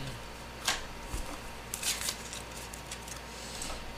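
Tarot cards are shuffled and a pile of them spills out, heard as a faint papery rustle broken by a few brief, sharper flicks and bursts of cards, with no voices.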